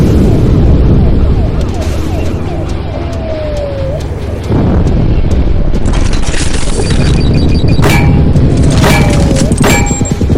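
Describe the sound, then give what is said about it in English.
Missile explosions in a tank video game hit as loud booms and thuds over a dense, continuous roar, with a couple of whistling tones that slide downward in pitch. “Well, time for the missiles.”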